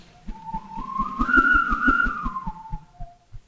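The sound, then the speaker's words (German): A long air hose, thinner than a little finger and running from a foot pump to an air mattress, whistles a sustained tone rich in overtones over fast, regular low thumps, swelling in the middle before fading out. “war nichts weiter als ein Verbindungsschlauch von der Tretpumpe zur Luftmatratze. Er ist nicht dicker als mein kleiner Finger, aber dafür viel länger und er macht dieses Geräusch.”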